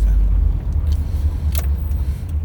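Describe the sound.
Car driving through the city centre in the early morning, a loud steady low engine and road rumble with a few faint brief clicks above it.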